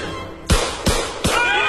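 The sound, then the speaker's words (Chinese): Gunshots ring out at a wedding: three sharp, loud cracks, evenly spaced less than half a second apart, each a sudden broad burst with a brief ringing tail. “突然婚礼现场竟然响起了可怕的枪声，这让所有人都惊慌失措。”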